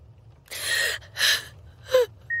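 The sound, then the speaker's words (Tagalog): Rough, obstructed breathing of a dying patient, as if something blocks the throat: three raspy, gasping breaths spaced about half a second apart over a faint low hum. “kung naririnig niyo po yung bawat paghinga, eh para pong magaspang. Yung paghinga po niya na parang may nakabara po sa lalamunan, palatandaan din po yun”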